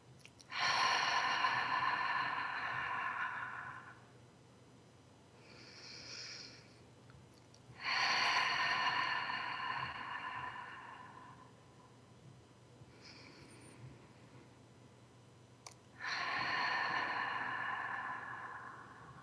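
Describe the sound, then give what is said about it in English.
Three slow, deliberate breaths as a calming exercise. Each is a long, airy exhale lasting several seconds, with softer, shorter breaths in the gaps between them. No talking. “I invite us all to just take 3 conscious breaths together.”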